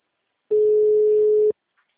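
A single telephone ringback tone sounds while a call is being placed, one steady, pure mid-pitched beep lasting about a second, then silence.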